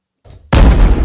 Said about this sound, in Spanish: Ahí está la bomba.